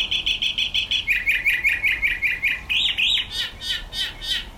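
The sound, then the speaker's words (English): Mockingbird song from the high desert mountains of Mexico, sung by a bird perched outside a window in the morning. It is a bright, rapid run of repeated chirps that switches to new note patterns a few times, loud and clear with no voices. “like this recording of a cenzotle, or mockingbird, shared by Flynn Wendling.”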